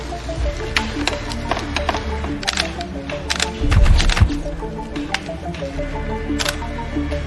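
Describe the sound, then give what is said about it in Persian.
Camera taking photos, with several sharp shutter clicks spread over a steady background hiss and a brief low rumble in the middle. “تا چیزی پیدا نکردیم حرف نزن. عکس بگیر.”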